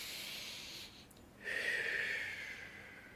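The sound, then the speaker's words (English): A single deep breath taken during a mindfulness exercise, heard as a faint, airy inhale that swells and then gently tapers off in a soft hiss. “every time you hear the first ring, you take a deep breath. So the phone goes ring and you go,”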